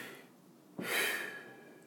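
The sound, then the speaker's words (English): A voice imitates a basketball player breathing before a free throw: one sharp, forceful breath that starts suddenly and trails off as a steady, fairly faint rush of air. “And you notice every one of the guys, when they have to shoot a free throw, they're aware of their breathing. You see them go”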